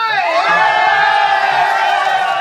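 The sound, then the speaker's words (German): Rescue teams cheer after finding 13 people missing for nine days in a flooded cave, many voices shouting and whooping together in a loud, continuous roar. “Jubel bricht aus unter den Rettungsmannschaften.”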